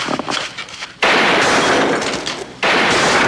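Gunfire in a tense crime-drama scene: two sudden, loud blasts, each followed by a long, harsh, noisy roar that only slowly eases off.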